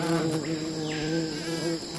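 Wasps buzz at a large, active wasp nest in the New World tropics, a steady, fairly faint drone of layered humming tones with no voices.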